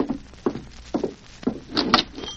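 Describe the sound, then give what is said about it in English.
A general store door being opened on a hot afternoon on a small town's main street: regular, evenly spaced thuds, then a busier, brighter burst near the end, with no voices. “Storekeeper open door for me to go out.”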